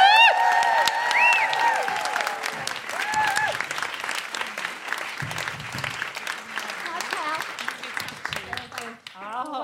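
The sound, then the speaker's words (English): Studio audience applause and cheering as a comedian is welcomed. Clapping is mixed with high whoops and voices in the first few seconds, then the applause continues steadily and slowly thins toward the end. “Please put your hands together and make general woohooing noises for Pippa Evans.”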